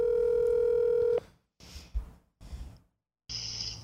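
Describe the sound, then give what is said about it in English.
A telephone dial tone sounds steadily for about a second before cutting off. A few short, noisy bursts follow, then a brighter tone near the end as a call to a guest is placed. “So we're going to dial in Goldie over here.”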